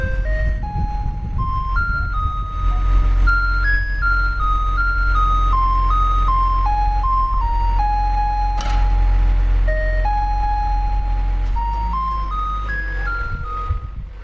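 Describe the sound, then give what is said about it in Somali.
Electronic signal tune of a sanitation truck touring neighbourhoods of Djibouti city: a loud, looping chime melody of bright single notes stepping up and down, over a low steady rumble. “Kaasi aad maqlaysaan waa dhawaaqa ay isticmaalaan baabuurta nadaafada ka shaqeeya gudaha caasimadda Djibouti waxayna ku wareegaan xaafadaha kala duwan ee caasimadda Djibouti”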